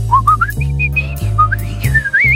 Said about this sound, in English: People who walk around whistling